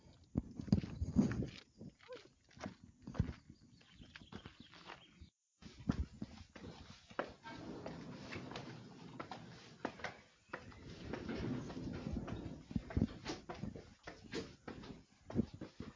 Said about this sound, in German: Wir erklimmen gerade den Bismarckturm. Noch mehr Höhenmeter.